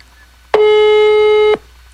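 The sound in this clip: A telephone tone during a call: a single loud, steady electronic beep with a bright harmonic buzz, lasting about one second. It stands alone, with no talk.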